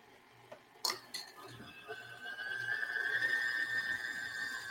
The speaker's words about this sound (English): now we're going to put in half of our dry mixture. Just mix it in slow.